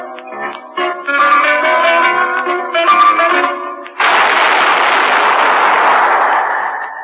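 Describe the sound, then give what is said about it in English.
A single loud gunshot breaks in after a few seconds of plucked zither music, its harsh, noisy blast holding for about three seconds before easing slightly. “That was the shot that killed Harry Lyon.”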